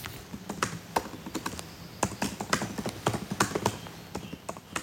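Typing on a computer keyboard while writing a novel, a steady, uneven clatter of many quick keystrokes with short pauses between bursts and no talking.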